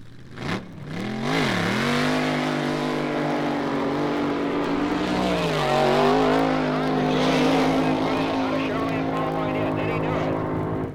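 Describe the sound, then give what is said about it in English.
A Chevrolet race car roars through a qualifying lap, its engine a loud sustained drone whose pitch dips and recovers a couple of times before holding steady. “Will this Chevrolet qualify? He's really going to have to hustle.”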